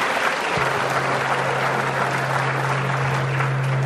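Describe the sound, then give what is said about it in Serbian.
Steady audience applause at a ceremony honouring Serbia and its army, a dense, even roar of clapping throughout, joined after a moment by a low continuous electrical hum. “Molim vas, veliki aplauz za Srbiju, za Prizmu i za vojsku.”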